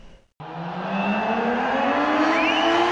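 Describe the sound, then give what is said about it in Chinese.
Racing motorcycle engine on a test run at a mountain race circuit in Chengdu. After a brief quiet moment the engine roars in loudly and its pitch climbs steadily into a high, strained whine that holds to the end. “他到访成都天府国际赛道，并上赛道进行了试跑体验。”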